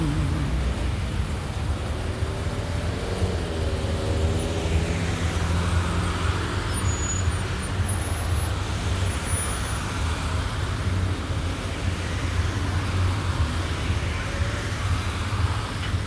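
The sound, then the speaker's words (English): Steady rumble of a bus arriving, with continuous engine and road noise holding at an even level for about sixteen seconds. “There's my bus, about to go right to where I gotta be.”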